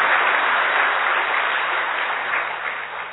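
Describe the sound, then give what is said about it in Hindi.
Audience applause greets a revered elder guest at a gathering: steady, dense clapping from many hands that holds evenly and eases slightly toward the end. “हम सभी पहले करतर ध्वनि से उनका बहुत तहदिल से स्वागत करते हैं।”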